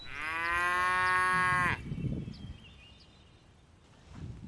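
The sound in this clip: A cow in a herd of cattle lets out one long, loud, deep moo with a rich harmonic tone, and then the sound falls to a much quieter background.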